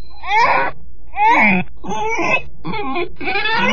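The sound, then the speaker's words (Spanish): A baby bawling and turning into grunting piglet sounds: five loud wailing, moaning cries in quick succession, each sliding downward in pitch. “Y antes de que Alicia pudiera calmar al bebé, sus berridos se fueron convirtiendo en gruñidos. Y el bebé se fue convirtiendo en un cerdito.”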